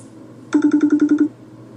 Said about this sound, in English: What was that? What? Oh, that's someone calling.